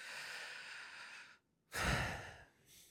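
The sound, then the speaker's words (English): Slow, deep breathing: a long, airy breath, then after a short pause a fuller, louder one, faint and heard alone. “Just taking some deep breaths”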